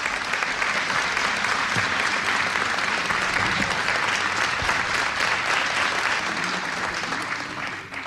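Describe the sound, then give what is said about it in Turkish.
Dense, sustained applause for a choir and its conductor after a Turkish folk-song performance. It stays loud and even throughout, then tapers slightly at the very end. “Koromuzu ve Şef Mehmet Erenleri gönül dolusu alkışlıyoruz efendim.”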